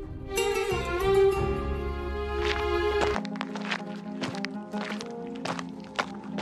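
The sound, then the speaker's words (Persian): Footsteps land in an uneven series of sharp steps, following a sustained musical drone that cuts off midway, with a low steady tone lingering underneath. “صدای قدم ها رو می شنوی؟”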